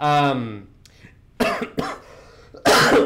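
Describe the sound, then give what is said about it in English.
A person coughs three harsh, raspy times after a brief voiced sound, with short quiet gaps between the coughs. “As I'm coughing, keep hydration.”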